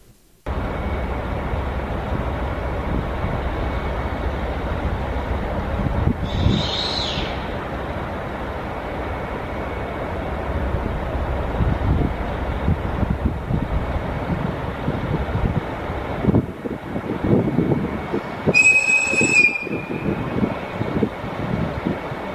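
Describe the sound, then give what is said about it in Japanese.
A sightseeing diesel train departs in the Kushiro Marsh area, its engine rumbling steadily throughout. A short high whistle sounds early on, and a longer, harsher whistle comes near the end as the engine noise grows louder. “ノロッコ号の出発するピーっていう、そして、エンジンを響かせて、通り過ぎていくというようなシーン”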